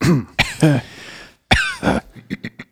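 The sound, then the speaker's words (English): Coughing and throat clearing come in a few harsh bursts, grouped in two clusters, followed by several faint short clicks and grunts at the end. “Cough here.”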